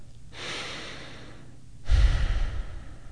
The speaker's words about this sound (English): I want you to take in a deep breath.